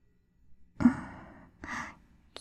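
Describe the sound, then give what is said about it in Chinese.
Quickening, heavy breathing: a sharp gasping inhale drawn out into a long breath, then a second shorter breath, loud and with no talk. “奇怪，为什么你的呼吸快，我的呼吸也跟着急促起来了呢？”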